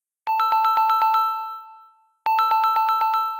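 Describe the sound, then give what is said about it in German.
A telephone rings on an outgoing call to Rome: two bursts of rapid, bright, bell-like pulsing rings separated by a short pause, each burst fading as it ends. “Anruf bei Francesco Cancellato in Rom.”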